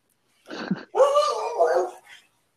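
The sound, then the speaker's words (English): A dog vocalizes: a short bark, then a longer, wavering, drawn-out bark or whine, followed by a faint trailing sound. “Sorry for the dog. Your dog agreed with you.”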